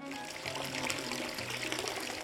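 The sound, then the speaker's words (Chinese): A hot water tap is turned on full to fill a bath, giving a steady, faint hiss of rushing water with no breaks. “她不小心将热水开到最大，可能是怕老公着凉吧。”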